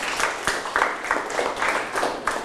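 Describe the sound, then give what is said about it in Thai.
Students in a classroom clapping for themselves, a moderately loud round of hand claps that pulses in a fairly regular rhythm of bursts throughout. “ก็จบไปแล้วปรบมือให้ตนเองทุกคนเลย”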